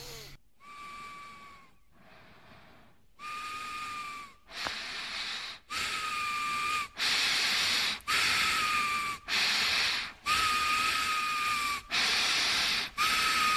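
Heavy breathing through the nose, a long series of about eleven loud nasal breaths in a steady in-and-out rhythm, each carrying a high whistling wheeze and snorting hiss.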